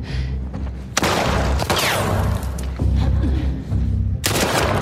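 Gunfire rings out in a shooter video game: a few sharp, loud shots burst over a steady bed of low game sound, with the clearest blasts early on and another near the end.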